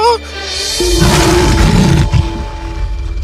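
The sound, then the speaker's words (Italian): A lion roars angrily, loud and rumbling, swelling into one sustained, raspy roar of about two seconds with a deep low-end growl. “Il leone era furioso perché qualcuno aveva disturbato la sua tanto attesa cena. Scorse Aaron e ruggì rabbiosamente.”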